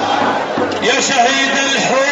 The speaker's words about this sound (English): Crowds at one protest chanted, "Martyr of Hula, we'll not forget you. Child of Hula, we won't forget you. Bashar is responsible for your killing."